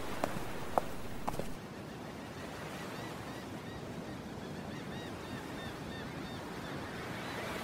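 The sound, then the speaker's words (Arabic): Harbour ambience on arrival at a port: a steady, soft wash of waves and wind runs throughout, with a few light knocks near the start. “يبدو أننا وصلنا إلى الميناء.”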